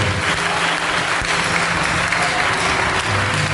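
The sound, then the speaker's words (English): Applause from a church audience: dense, steady clapping from many hands, loud and continuous for the whole clip with no voices over it. “We are clapping and clap”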